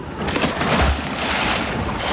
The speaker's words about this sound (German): Hat man richtig gehört, gell? War ein richtiger Köpfler und jetzt krault sie dahin.